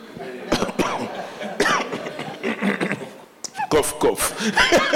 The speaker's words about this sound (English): cough.